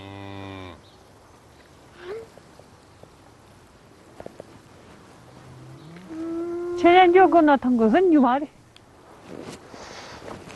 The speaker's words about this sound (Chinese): 一头母牛举止异常，拼命想冲出牛圈。